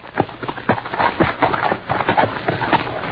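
Loud hoofbeats pound rapidly as several horses set off together, a dense run of sharp thuds that continues throughout without a break.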